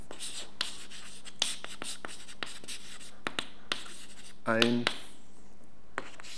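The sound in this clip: Writing strokes scratch a surface during a lesson: many quick scratchy strokes and taps in an uneven rhythm, fairly faint, with a brief voice sound near the middle.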